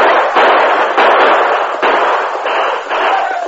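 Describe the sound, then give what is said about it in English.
Gunshots crack and boom in a radio drama shootout as a posse fires on men coming out of a chapel, several loud, reverberant blasts following one another in quick succession with no voices. “Right around them, keep firing down at them.”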